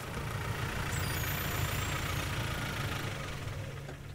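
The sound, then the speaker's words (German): A ranger's car engine running as it drives onto a river dike in a riverside nature reserve: a continuous, steady low rumble at an even level, alone with no talk. “Sie darf das auf den Deich fahren zur sogenannten Gebietskontrolle.”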